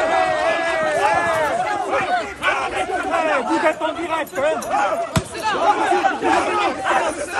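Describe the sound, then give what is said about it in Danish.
Crowd noise from riots in France: a dense, continuous mass of shouting and clamouring voices that stays loud throughout, with one sharp bang cutting through near the end. “Ja, det var lyd fra de optøjer i Frankrig, som raserer landet lige i øjeblikket.”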